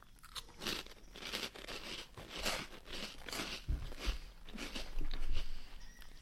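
Crisp crunching of a chickpea snack with garlic flavour eaten from a bag, many sharp bites and chews following one another in a steady, irregular rhythm, with no talking.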